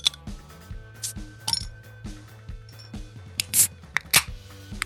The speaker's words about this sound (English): So let's crack the beers and get to it.